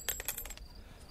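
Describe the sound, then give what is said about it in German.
A dropped gold coin strikes a hard surface in a quick run of bright metallic clinks and taps, and a thin high ring lingers faintly after the bounces stop. “Ein Goldstück.”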